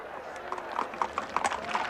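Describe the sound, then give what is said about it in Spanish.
Hooves clip-clop steadily from a horse pulling an open carriage, a run of many quick, evenly spaced knocks over a busy, continuous background. “le lleva hasta un coche de caballos descubierto”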